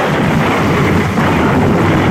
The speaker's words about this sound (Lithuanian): Ir tada supratau, kad mane nutrenkia žaibas.